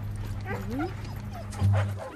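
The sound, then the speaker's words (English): Several dogs on leads in a park give high whining yips and whimpers, with a low droning hum running underneath and a louder burst near the end. “Bernadette, who's leading a pack of dogs through the park on leads.”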